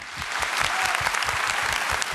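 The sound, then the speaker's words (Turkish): Audience applause for master folk musicians at the close of a Turkish program featuring halay dancing. The clapping is dense, loud and steady throughout, with no voices. “Şimdi üstadlara şöyle bir kocaman alkış.”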